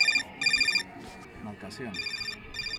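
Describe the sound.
Cell phone ringing in a poor hillside neighborhood of Huaycan, Peru: short bursts of bright, trilling electronic rings that stop and start, with people talking underneath.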